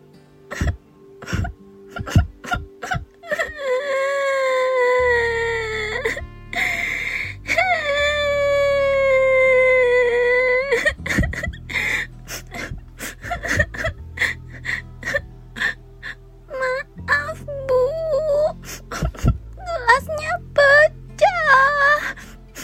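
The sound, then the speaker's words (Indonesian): A young girl cries in her bedroom, afraid her mother is angry, with several long, wavering sobbing wails broken by short gasps and catching breaths. “Tiba-tiba, Kikan menangis.”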